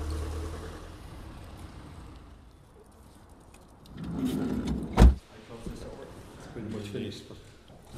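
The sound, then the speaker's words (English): A car rolls in and arrives, heard as a low, steady rumble that builds midway and is topped by a sharp thump, then settles into softer movement. “Roz and John are just driving in now”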